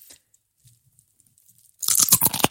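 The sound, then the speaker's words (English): A potato chip is bitten right into the microphone: after near silence, a loud burst of brittle crunching with several sharp cracks fills the last moments. “I'm currently eating a chip, and I want you to listen really closely right now, because what I'm going to do is I'm going to bite the chip into the microphone”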